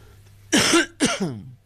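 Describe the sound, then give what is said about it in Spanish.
Two harsh, forceful coughs from a person with a persistent cough, the second trailing into a smaller rasping cough, with near silence before them. “Como ustedes ven, sigo con mi problema tosivo, mi problema de tos”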